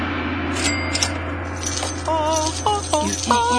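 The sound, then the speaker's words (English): A harmony card sound effect rings out as bright, glassy tinkling tones that repeat in short chiming phrases over a steady low hum. “I got to still get the harmony card sound effect ready. And it's here now.”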